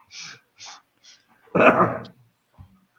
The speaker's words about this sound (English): My dachshund is a bit of an asshole, and he keeps barking